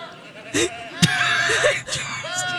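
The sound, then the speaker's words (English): Goats bleat in a few short, wavering calls, interrupted once by a sharp click. “I see your goats. I see your goats.”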